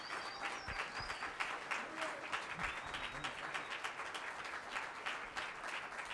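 Church audience applauding a visiting pastor from Texas at a morning service: dense, steady clapping from many hands fills the whole clip at an even, fairly loud level, without a clear build or fade.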